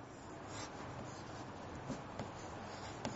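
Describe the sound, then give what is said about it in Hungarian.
Soft scratching of a diagram being drawn by hand, with faint, steady rubbing strokes and a few slightly sharper ticks near the end, quiet and without speech. “Na, még egyet rajzolok.”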